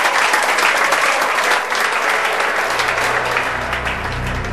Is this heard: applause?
yes